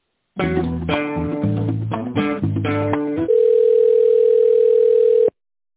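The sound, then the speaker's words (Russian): Telephone tones while a call is put on hold and transferred: a short run of loud electronic notes, then a long steady single tone that holds for about two seconds and cuts off abruptly. “Одну секунду, я переключу вас на секретариат.”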